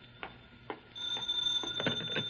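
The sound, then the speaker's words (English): A telephone rings faintly, a sustained high electronic tone with a slight rattle, preceded by a couple of soft clicks. “Now the phone.”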